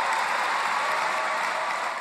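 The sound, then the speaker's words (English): Labor Party conference delegates applaud Bill Shorten's speech on an emissions trading scheme. A thick, continuous wash of clapping stays level throughout and tapers slightly at the end. “While many delegates are cheering his stand on an emissions trading scheme”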